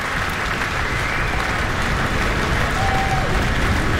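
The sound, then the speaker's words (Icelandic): Concert audience applause follows a singer's performance as soloists and orchestra return to the stage. Continuous dense clapping stays loud and even throughout, with no pauses. “Já, fagnaðlátunum linnir ungan veginn hér”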